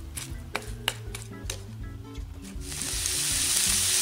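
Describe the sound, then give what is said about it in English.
Onions sizzle as they fry in melted butter in a pan for a steak and mushroom dish. A steady hiss with a few faint clicks swells louder over the final second. “Our butter is melted, so now we're going to add our onions and get them started.”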